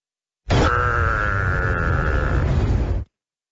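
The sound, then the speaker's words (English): A giraffe calf gives a single loud, sustained, groaning call about two and a half seconds long. It holds a steady, buzzy tone throughout and then cuts off sharply into silence. “It's the sound of a giraffe. Can we just hear it again? They don't sound very happy”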